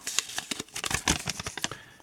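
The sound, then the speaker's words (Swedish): Paper lottery entries being mixed and drawn from a jar, heard as quick, irregular rustles and dry clicking crackles of slips shuffled together, moderately loud and without speech. “Så nu häller vi ner de som har alla rätt i en burk med de som inte hade det och blandar. Och drar.”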